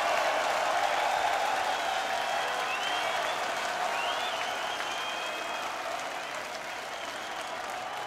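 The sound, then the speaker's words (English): Crowd applause at an open-air metal festival in the United Kingdom: sustained clapping and cheering from a large audience with a few high whistles, staying steady and easing slightly toward the end. “Every person here, please give yourself a big round of applause for welcoming us back to the United Kingdom so nicely.”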